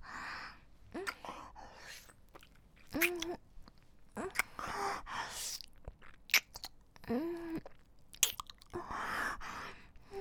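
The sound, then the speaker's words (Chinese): A small pet eats from a person's palm, making moist, crunchy chewing and biting sounds in irregular bursts with short pauses between them. “他竟然在我手心里跳了一下，看来是很喜欢了。让小娜吃两口。”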